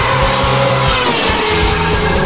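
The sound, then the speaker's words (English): Formula One race car doing donuts, its engine roaring loud and unbroken, with a harsh, buzzing rasp that holds steady throughout. “Can I do donut? Donuts will not be required, thank you. Take that as a yes, then.”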